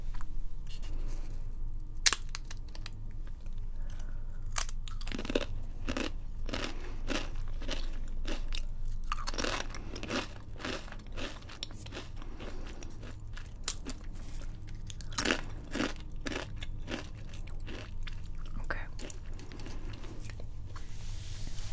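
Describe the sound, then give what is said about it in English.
Crunching and chewing of flavor-blasted chips dusted with powdered seasoning: many crisp, irregular crunches and bites follow one another steadily throughout, with no talking. “Tasty. Chip noises. Weirdly nice.”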